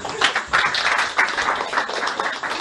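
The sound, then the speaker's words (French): Applause from a group of people, a dense, steady wash of clapping that stays fairly loud and continuous without a break. “Applaudissez pour ses frères.”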